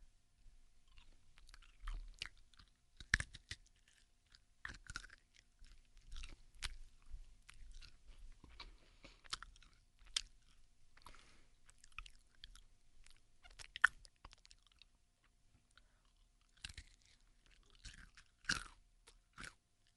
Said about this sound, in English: going to slowly now put some nuts in her mouth